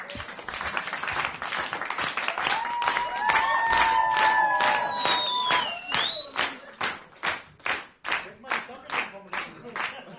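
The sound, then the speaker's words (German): An audience claps in rhythm: many evenly timed claps that grow sharper and more separated toward the end, with a sustained tonal sound over the first half. “Können wir mal im Takt klatschen, wenn er so hochzieht?”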